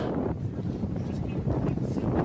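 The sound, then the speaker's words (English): Wind buffets a microphone in a played-back news video, a steady, dense, low rumbling roar that fills the whole moment without letting up. “Just the wind is hilarious to me in this thing.”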